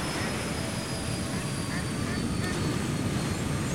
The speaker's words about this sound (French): Oh, regarde, un hélico. Ouais, ouais, j'entends, j'entends.